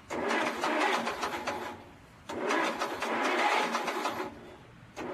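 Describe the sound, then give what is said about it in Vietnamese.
A faulty car engine that fails to start: two long, loud grinding cranking bursts separated by a short pause, with a third burst just beginning at the end. “I think my engine is shot. This is not good.”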